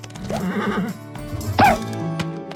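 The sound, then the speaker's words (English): A vintage cartoon horse whinny sound effect: a wavering, nasal neigh, then a second sharp, higher cry, both loud against a faint background. “we had to find kind of different vocals for each of the horses. But even Spirit Riding Free still sometimes needs a dose of the vintage cartoon sounds.”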